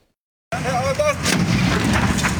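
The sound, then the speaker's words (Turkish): Workers' container at a construction site exploding after a fire: loud blasts and a heavy, continuous roaring rumble that bursts in abruptly after half a second of silence and stays loud to the end. “Konteyner işte böyle patladı.”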